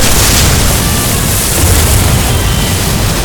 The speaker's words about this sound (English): Torpedoes armed and ready, sir. Fire one.